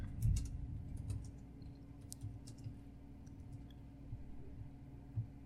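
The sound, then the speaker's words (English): Someone types a search on a computer keyboard: a few faint, scattered key clicks over a low steady hum. “Okay, type in Zoe 101 time capsule.”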